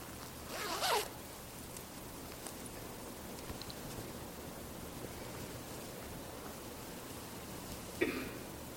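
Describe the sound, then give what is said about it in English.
A jacket zipper unzipping as the jacket is taken off: one brisk, short zip near the start, then near-silence with a faint hiss, and a second brief zip-like rasp near the end, all quiet. “excuse me a moment, deliciously warm. I'm just going to take off my jacket.”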